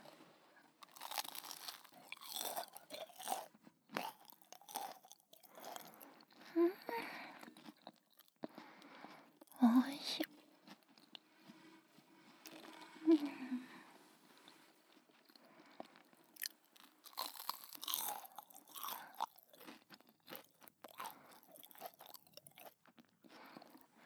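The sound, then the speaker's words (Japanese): Crunching bites of freshly fried food eaten right beside the microphone: many crisp, crackly bites and wet chewing in an irregular rhythm, fairly quiet, with short pauses between bursts. “もうちょっと耳元で食べちゃおっかな。”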